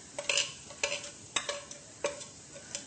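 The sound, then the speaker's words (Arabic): Garlic sizzles in a frying pan as dried mint is added, with several sharp scrapes of stirring standing out over a faint, steady hiss. “مع الثوم لو تعملي الاكل بدي نعنع يابس. النعنع اليابس كتير كتير مشهور بمنطقتنا، فبزيده بسرعة قبل ما ينحرق الثوم.”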